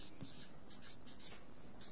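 A pen scratches faintly and continuously across paper as someone writes words by hand in German, producing a soft, steady rustle with no clear breaks.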